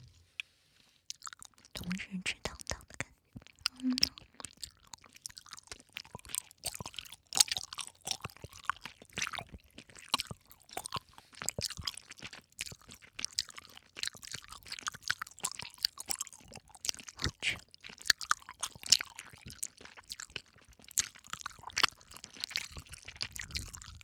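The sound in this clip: Chewing of sweet and sour food: many irregular crunchy, wet bites and mouth sounds go on steadily over a long stretch, quiet and with no talk.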